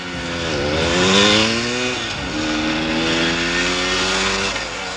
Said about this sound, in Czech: To je moje motorka.